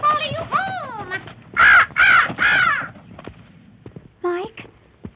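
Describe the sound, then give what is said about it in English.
A raven calling with harsh, croaking caws in a loose series. A couple of calls come first, then three loud, drawn-out caws in the middle and a shorter call near the end. “There's that raven again.”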